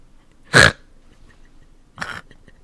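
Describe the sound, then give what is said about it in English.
Two nasal snorts from a man, likened to a giant bulldog: the first loud and rough, the second softer and shorter, with quiet between them. “The giant bulldog is actually just me snorting.”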